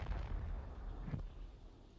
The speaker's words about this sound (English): The wind brought the throb of rocketry from the south. Ground-to-space interceptor missiles being fired into orbit.